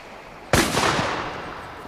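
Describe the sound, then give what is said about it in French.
A single loud rifle shot fired from land as a signal, heard at sea off an island in 1838: one sharp crack after a brief hush, trailing into a long, fading rumble. “Le signal de terre. Voici un fusil. Voulez-vous y répondre vous-même?”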